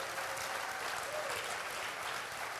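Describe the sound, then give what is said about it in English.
Audience clapping rolls on as a faint, even patter of many hands, steady from start to finish without a break. “you know, you're clapping, but let's just clap him”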